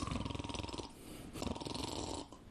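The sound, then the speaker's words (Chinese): A storyteller imitates loud snoring with his voice, giving a few rhythmic, raspy, rattling snores in two bursts. “鼾声如雷，睡着了。”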